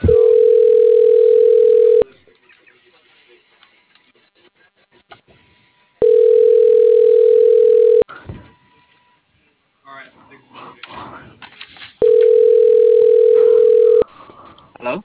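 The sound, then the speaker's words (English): A telephone ringing tone after dialing: three long, steady, mid-pitched tones, each about two seconds, separated by longer gaps filled with faint low noise. “One second, I just hit dial.”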